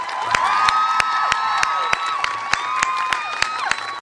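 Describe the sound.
Audience cheering and applause welcoming a speaker to the stage: crisp claps keep a steady beat under loud whoops and shouts, staying strong before cutting off at the end.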